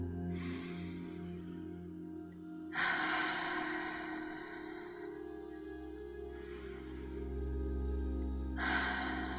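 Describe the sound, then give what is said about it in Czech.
Slow, deep breaths during a guided relaxation, soft breathy inhales and exhales repeating a few times over a steady low drone. “Hluboký nádech a výdech do celého těla.”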